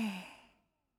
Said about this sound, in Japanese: 息を大きく吸って、そう、ゆっくり吐いて、